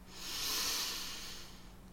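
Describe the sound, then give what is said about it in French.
A single long inhale through the nose during a calm yoga breathing exercise makes a soft, airy hiss that swells over about a second, then gradually fades, heard alone. “Une longue inspire par le nez.”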